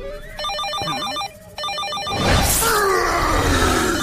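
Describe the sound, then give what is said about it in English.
Telephone rings in an animated superhero cartoon as two bursts of rapid, warbling electronic trills separated by a short gap, then a louder, noisy rushing sound takes over. “That's just a phone, Hulk.”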